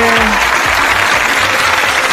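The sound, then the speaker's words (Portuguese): Applause from an audience clapping for a woman during a live show, a dense, steady burst of many hands that stays loud throughout its short length, with faint crowd noise mixed in. “Uma salva de palmas pra ela”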